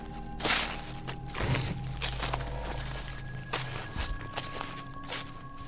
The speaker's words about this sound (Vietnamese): Ở bên ngoài đáp lại chúng tôi bằng tiếng bước chân sột soạt, thỉnh thoảng vang lên tiếng thình thịch